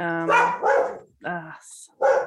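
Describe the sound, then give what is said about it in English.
Dog barking inside a temple: a few short, mid-pitched voiced barks and yelps separated by brief pauses, with a faint hiss between them. “I think there's a dog in the temple.”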